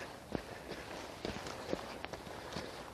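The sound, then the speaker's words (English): Footsteps walk over slushy, melting snow: several soft, irregular squelching steps, faint and uneven in rhythm against a quiet background. “I'm not too thrilled with the walking conditions, though. At least along this stretch, it's a little meltage.”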